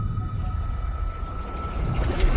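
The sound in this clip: Whale vocalizing in the animated film Finding Nemo: a long, steady tonal hum holds beneath a dense bed of low, rumbling underwater noise, continuous and fairly quiet throughout with no voices.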